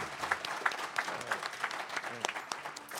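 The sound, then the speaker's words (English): Applause from a live audience at a bar media and judiciary conference: a short burst of dense, crackling clapping at an even level. “We have an audience with us. Give yourselves a hand.”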